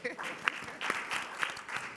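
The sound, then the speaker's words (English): Faint audience applause at a speech event: soft, continuous clapping with a few sharper accents, mixed with voices or cheering from the crowd. “I think we need to clap for each other.”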